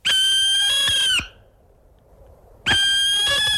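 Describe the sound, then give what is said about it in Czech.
A barn owl calls in two long, loud, harmonic screeches, each held about a second, with a short quiet gap between them and no other sound. “To je sova pálená”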